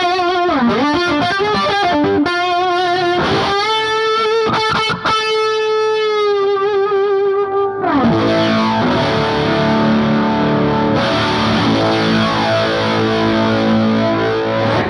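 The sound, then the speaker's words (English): Electric guitar through a Keeley flange-like modulation pedal: sustained notes warp and sweep in pitch with a swirling, colored tone, then switch to dense, loud strummed chords with a shimmering, wobbling texture. “It's kind of like a flange, kind of like a whatever. Warps it and colors it and Keeley does such great weird stuff.”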